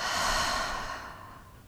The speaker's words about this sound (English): let's take one deep breath together before we move on to the next sensation. breathing in and out.